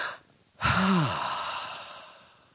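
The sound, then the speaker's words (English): A deep breath let out as one long, breathy sigh, with a sudden onset and a faint voiced hum at the start, then a steady rush of air that slowly fades over about two seconds. “Take a deep breath. Y'all take a deep breath.”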